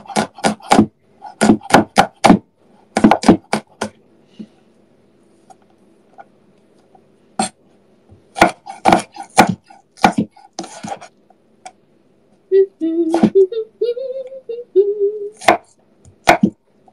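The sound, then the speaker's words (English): A knife in need of sharpening minces garlic on a board in sharp bursts of rapid chopping strokes separated by pauses. A voice speaks briefly between the later bursts. “More minced garlic never hurt anybody. I should sharpen this knife.”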